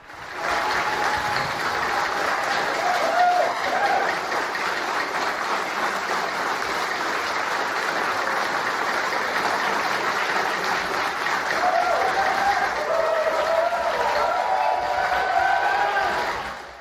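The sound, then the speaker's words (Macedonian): Applause and cheering fill Victoria's parliament after the first Treaty legislation in Australia is passed. Dense clapping holds as a steady roar for the whole stretch. “Навивање одекнуваше низ парламентот на Викторија во четврток вечерта, откако државниот парламент направи историја со усвојувањето на првиот Treaty Legislation закон во Австралија.”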